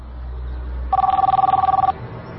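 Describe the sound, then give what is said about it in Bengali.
A telephone rings in one short burst, a rapid trilling bell of many fast pulses lasting about a second, then stops, leaving a low background hum. “Phone কোথায় বাজছে বলতো?”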